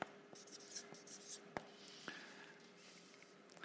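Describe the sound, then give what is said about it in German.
Handwriting: a pen scratches across paper in a soft, continuous rustle, broken by a few sharper taps and strokes. “Ich, ich schreibe es mal so ganz abgekürzt.”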